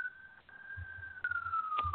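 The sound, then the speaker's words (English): An ambulance siren passes in the streets: a faint, sustained high tone that slowly drifts lower in pitch, with light low rumbling beneath it. “And here comes the ambulance. They always come when we're doing a show.”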